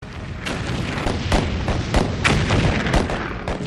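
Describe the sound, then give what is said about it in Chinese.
Cannon fire from shore defenders in South Carolina firing on a transport ship, a barrage of repeated heavy booms and thuds over a continuous rumbling roar. “卡罗来纳州的守军放炮示警，但是运输船拒绝停船，守军于是向运输船开火。”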